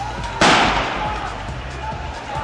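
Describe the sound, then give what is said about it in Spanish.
A single sharp bang, like a gunshot fired during a street protest in Caracas, Venezuela, bursts out loudly over continuous crowd noise and a low background rumble, then decays. “Los disparos no se hacen esperar.”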